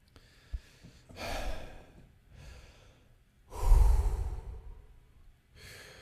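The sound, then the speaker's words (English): Deep, slow breathing as someone tries to bring down a raised heart rate: a few long, airy inhales and exhales with soft breathy rushes and quiet pauses between them, no talking. “Let's just take some deep breaths. Let's get my heart rate down.”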